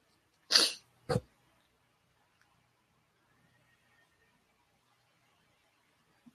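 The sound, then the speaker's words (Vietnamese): A Zen master gives a light cough: two short bursts, the first slightly longer and stronger, followed by near silence. “Kim Việt thiền sư ho nhẹ một tiếng rồi chậm rãi hỏi một câu.”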